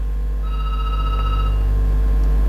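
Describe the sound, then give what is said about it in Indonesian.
A telephone rings as a call is placed, a loud, continuous ringing tone holding steady over a low hum, with no voices. “Oke, kenapa ini telepon WA-nya? Saya ke penelpon lagi, telepon biasa kalau begitu.”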